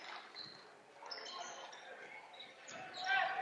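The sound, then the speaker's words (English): Basketball dribbled up the court during a high school game between Kearney Catholic and Doniphan-Trumbull, a series of faint, repeated bouncing thuds over soft, continuous background noise. “Dribbling up here is going to be Schultz.”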